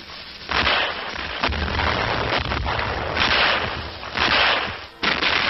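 Captured German cannons firing in frozen winter combat in the Ardennes, several heavy booming blasts rising out of a constant rough rumble, dull and muffled in tone.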